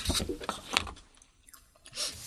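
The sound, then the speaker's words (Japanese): Chewing on a mouthful of seasoned potato salad: a few moist, crunchy bites with soft mouth noises, moderately loud and with no talking. “この一口のポテサラだけど。ガツン。ほりにしってなんでこんな美味しいんだろう。”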